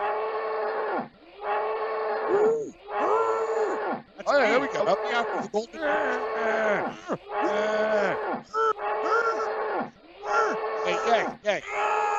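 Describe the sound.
Longhorn cattle moo in a long series of deep, drawn-out, groaning calls with brief pauses between them. Some calls waver or break into rougher, strained tones.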